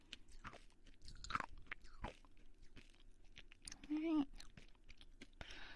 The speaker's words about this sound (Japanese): コンペイトーを食べきりました。